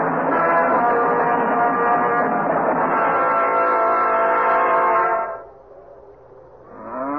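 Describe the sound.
A cattle herd lowing during a stampede: a long, droning, horn-like bellow holds steady for several seconds, drops away into quiet, then another low call starts to swell.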